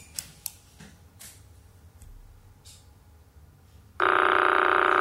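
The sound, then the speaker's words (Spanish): The Crab Pulsar's radio signal played as sound, a periodic pulse every 0.033 seconds. A few faint sharp clicks are followed by an abrupt, loud, continuous buzzing tone that fills the final second. “Este es el cangrejo, ¿vale? La señal del pulsar cada 0,033 segundos, ¿vale? Es una señal periódica que aparece cada 0,033 segundos.”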